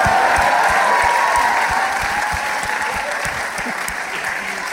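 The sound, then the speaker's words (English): Audience applause for House Party 2, a continuous loud wash of clapping and crowd noise that holds steady throughout. “Only give it up for the deuce!”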